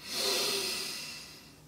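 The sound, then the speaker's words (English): Soft, slow breath of air during a guided deep-breathing exercise, a single quiet whooshing swell that rises quickly and then fades gradually, with no talking. “One deep breath. We hold for 2 seconds and then we exhale. Another deep breath.”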